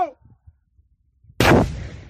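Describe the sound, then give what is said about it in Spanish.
A single loud blast from a controlled detonation of explosive devices by a bomb disposal team in a quarry. It bursts suddenly after near silence and fades into a long, rumbling tail. “Fueron a una cantera de Noia y procedieron a la desactivación controlada de los 10 artefactos. ¡Cuidado, que va! ¡Fuego!”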